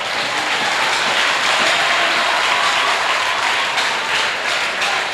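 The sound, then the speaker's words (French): An audience at a mass evangelism day applauds and cheers, a steady, loud wash of clapping that holds evenly through the whole stretch with no voices standing out. “Et acclamons le Seigneur.”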